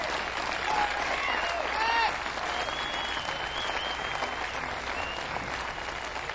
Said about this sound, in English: How about a nice hand for these brilliant musicians?